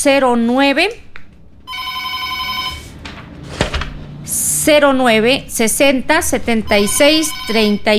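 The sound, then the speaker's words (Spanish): A telephone rings for an incoming call on a radio call-in show, one steady buzzy ring burst. A host talks before and after it. “Estamos con una llamadita telefónica.”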